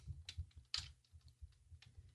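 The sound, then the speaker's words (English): Typing on a computer keyboard gives a run of many soft, irregular clicks and taps, faint throughout with no voices. “I'm just typing some messages here. I'll get off the keyboard in a minute.”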